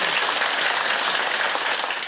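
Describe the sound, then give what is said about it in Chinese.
Crowd applause at a temple inauguration ceremony, dense and continuous clapping that runs loud and steady from start to end. “拍手啊！”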